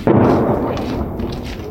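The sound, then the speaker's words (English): A single explosion in a city sets off with a sudden loud boom, then a broad rumble that slowly fades over under two seconds, heard alone with no voices. “On the other side of the city, an explosion makes Nikolaevna jumpy.”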